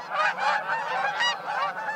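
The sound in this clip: A gaggle of geese honking, with many overlapping nasal calls forming a loud, continuous chorus.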